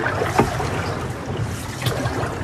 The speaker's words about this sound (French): J'adore ce moment où le voyage commence, où on a la sensation de remonter le temps autant que la rivière. On est sur cette barque traditionnelle